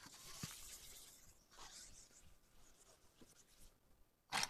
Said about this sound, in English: let me try to draw a picture of what we're doing here